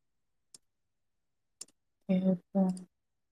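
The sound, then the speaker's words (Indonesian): Two faint, isolated clicks, followed by a voice imitating clicking with two short, emphatic syllables. “Klik klik klik klik klik klik klik klik klik klik klik klik”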